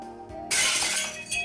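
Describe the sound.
Glass shattering as a video game effect bursts in suddenly after a quiet tonal lead-in: a bright, loud crash that keeps crackling and glittering to the end.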